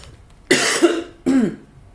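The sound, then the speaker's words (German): Two short, harsh coughs in quick succession, the first trailing into a brief throaty rasp, then quiet. “Einmal husten.”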